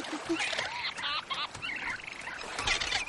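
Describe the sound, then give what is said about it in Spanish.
Birds on a tropical beach in an animated adventure film stalk a baby turtle, giving many overlapping shrill, honking calls over a constant rushing background noise. “Se fija en unos pájaros que acechan a una cría de tortuga oculta entre unas raíces.”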